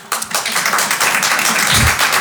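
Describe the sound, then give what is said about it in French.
Sparse applause from a tiny audience of about seven at a stand-up comedy show, thin scattered clapping that lasts a couple of seconds at moderate loudness. “Qui me connaît par applaudissement ?”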